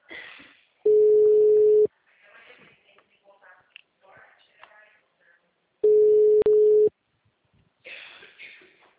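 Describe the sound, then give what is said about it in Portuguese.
Two long, steady telephone tones sound at one pitch while a phone call is being placed, separated by a stretch of faint rustling and clicks. “Ó, fazer ligação, hein?”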